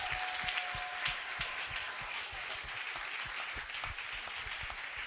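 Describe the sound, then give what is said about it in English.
Rhythmic hand clapping at a gathering, quiet and steady, with regular low-pitched beats under a soft continuous wash of claps. “Are you clapping?”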